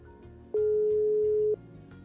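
A telephone ringback tone heard while calling someone: a single steady, mid-pitched electronic tone lasting about one second, starting and stopping cleanly over a faint low background.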